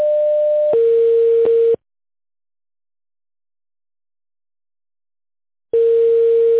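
Telephone line tone plays while a call is being transferred to an operator. A steady electronic tone drops to a lower pitch partway through, then cuts to about four seconds of silence before the lower tone resumes.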